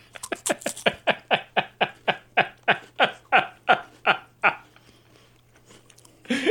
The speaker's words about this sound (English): And you want me to eat this? Yeah, get one with a lot of red pepper flakes on it.